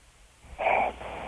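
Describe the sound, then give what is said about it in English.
A sleep apnea sufferer gives a snoring breath: a single wheezing, hooting rasp that swells for about half a second, then fades into low breathy noise. It is fairly faint and comes without talk. “See? Oh, my God. Oh, my God. That's sleep apnea, dude.”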